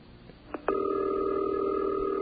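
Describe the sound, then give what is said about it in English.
Telephone ringing tone heard while waiting for someone in Buffalo to answer: a couple of soft line clicks, then a steady buzzy tone that holds unbroken to the end. “That we should have some kind of pleasant diversion to bring your way while we're waiting for them to answer the phone.”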